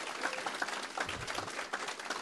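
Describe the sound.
Applause from an audience welcoming a guest speaker at a church morning gathering: dense, steady clapping that fills the whole short stretch at a moderate level, with no voices standing out.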